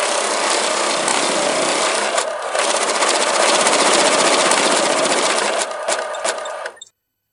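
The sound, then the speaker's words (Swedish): A tombola raffle drum being turned makes a continuous loud rattling and scraping churn. It runs steadily for about seven seconds, then cuts off abruptly. There is no speech. “Ja, ska vi köra tombolan? Tombolan.”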